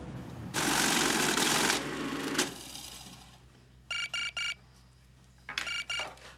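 A telephone rings while someone places a call. The rings come as short trilled bursts in two groups, one around the middle and one near the end. A stretch of broad rushing noise comes before them.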